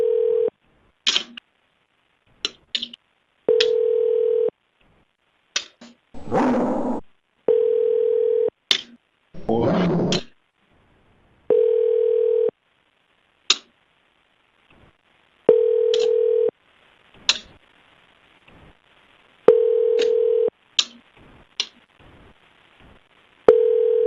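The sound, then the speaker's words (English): Repeated telephone tone from a broken phone: a steady mid-pitched beep recurring many times at uneven intervals, broken up by sharp clicks and a couple of louder crackling bursts, with silence between tones. “This phone's busted.”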